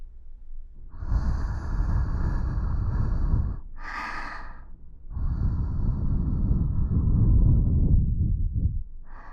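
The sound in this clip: Warm breath blown gently in two long, soft exhalations lasting several seconds each, with a brief airy puff between them. Steady breathy hiss, no talking.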